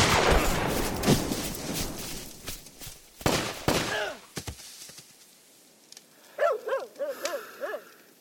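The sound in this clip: Gunfire erupts in an ambush: many loud shots in rapid bursts through the first half, thinning out into a few scattered cracks before quieter sounds follow.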